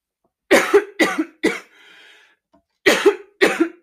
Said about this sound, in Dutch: Nou, sorry, ik kreeg een hele hoestaanval.